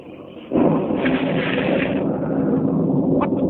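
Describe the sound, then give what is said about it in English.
A dramatized lightning bolt striking a seaplane: a sudden loud crash breaks into a heavy, continuous roaring rumble that holds steady to the end over a lower background noise. “Great heavens, lightning. Bolt of lightning struck the plane and smashed to pieces on fire.”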